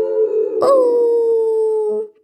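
A long, tonal howl sounds inside a chimney pipe. It is a single sustained, steady-pitched wail with rich harmonics that holds for about two seconds and then cuts off.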